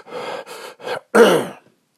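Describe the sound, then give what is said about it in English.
A person imitates heavy breathing into a phone: four raspy breaths, the first three short and evenly spaced, the last louder and longer. “I listened to a recording that I did, and I realized that I breathe way too much in the phone. I go,”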